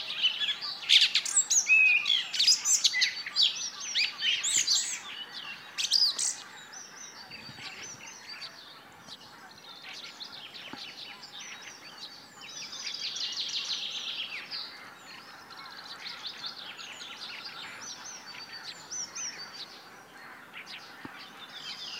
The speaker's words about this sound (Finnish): Innokkain laulaja tällä hetkellä on Laulu Rastas. Kuunnellaanpas sitä hetki.